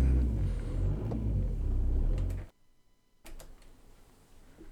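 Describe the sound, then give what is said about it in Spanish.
A car dragging tin cans behind it, as after a wedding, gives a rumbling, rattling roar with faint clinks for about two and a half seconds. The noise then cuts abruptly to near silence, and only quiet clattering and ticks remain. “Es el típico coche que arrastra los botes, eso de cuando te casas.”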